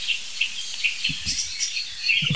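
Alarm calls of an agitated blackbird: a fairly faint series of short, high chirps repeated many times at quick, irregular intervals.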